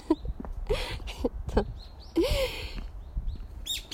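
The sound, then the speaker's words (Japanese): Birds singing outdoors: many short, high chirps and tweets come and go in bursts, with some lower, softer sounds between the calls. “なんかめっちゃ鳥が鳴いてる。”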